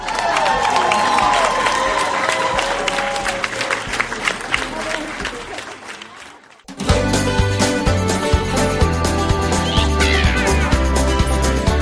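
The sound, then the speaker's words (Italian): Crowd applause with cheering, loud and continuous. After a brief dip it gives way to music. “Un bel applauso, amici ascoltatori.”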